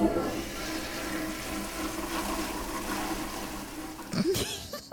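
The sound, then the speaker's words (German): A toilet flushes with a continuous rush of gurgling water that ends in a sharper swirling burst as the bowl drains. “So klingt ein Klo.”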